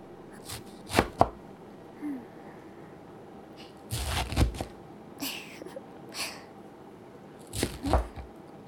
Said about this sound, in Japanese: えのきは石づてを切って、